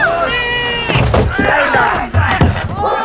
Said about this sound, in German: Peter, hilf mir, die Bodenluke zu öffnen. Und jetzt hinein mit ihm. Fass mit an.